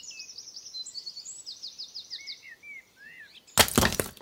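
Something shattering into a thousand pieces: a sudden loud crash of dense noise bursts in near the end and rings on briefly, after several seconds of steady, high bird chirps and tweets.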